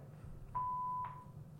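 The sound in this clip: A single voicemail answering-machine beep: one steady, mid-pitched tone lasting about half a second, sounding alone over a faint, low background hiss.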